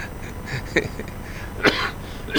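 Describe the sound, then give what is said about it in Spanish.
Coughing and throat clearing from people on a television program: a couple of short, harsh bursts over a faint steady hiss, with no talk between them. “Perdón. Bueno, perdón. Estamos tosiendo, así está la vida y así está nuestra salud.”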